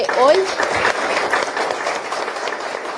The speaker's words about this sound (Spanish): Entonces yo quiero pedir un aplauso fuerte a los jóvenes